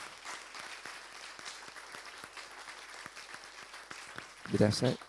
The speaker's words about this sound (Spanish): Ahora sí, le damos un aplauso al Señor.